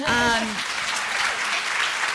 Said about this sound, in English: You can clap.